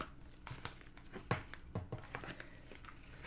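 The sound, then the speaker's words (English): Giant cowboy-themed Deadlands Oversized Action deck playing cards being handled and put back together, with many faint crisp snaps, rustles and crinkles scattered unevenly throughout. “anytime cards are referenced, that's just me putting my Rush deck back together, I will be referencing the Deadlands Oversized Action deck”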